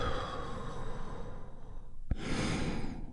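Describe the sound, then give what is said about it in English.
A deep breath drawn in and released: two long, airy stretches of breathing noise split by a brief click, steady and fairly soft, with no talk. “Take one big, deep healing breath with me right now. Here we go. And release.”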